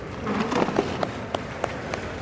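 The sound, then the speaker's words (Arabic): Clapping for a brother at a ceremony, heard as a handful of sharp, separate claps spaced in a fairly steady rhythm over a low murmur of background noise. “سيب الجوال وصفق لاخوك.”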